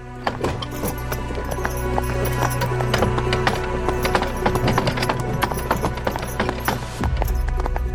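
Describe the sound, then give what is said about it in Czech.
Hooves clip-clop steadily as a horse pulls a wagon over stones, many sharp, irregular strikes riding on a continuous low rumble of rolling wheels, with no voices. “Cítím každý kámen, který vůz překonává.”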